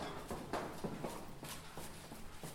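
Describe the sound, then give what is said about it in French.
Footsteps going down a very long staircase: a steady series of about eight hard, evenly spaced treads over a constant low background. “Donc là, on descend un super long escalier. Attention de pas glisser derrière”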